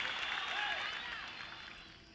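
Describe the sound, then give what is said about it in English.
Faint applause with some crowd noise: a soft wash of clapping that slowly fades toward the end. “Aplauso, aplauso.”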